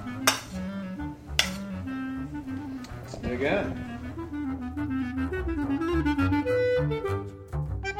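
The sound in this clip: Dishes and cutlery clink as food is served onto a plate: a couple of sharp, bright clinks stand out early, then softer clatter continues under a busy tonal background.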